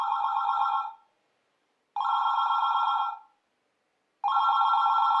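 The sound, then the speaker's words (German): A telephone rings with a steady, bright bell tone in three long bursts separated by short silences. The last burst is cut off at the end, and no voices are heard. “Das Telefon klingelt. Das Telefon klingelt.”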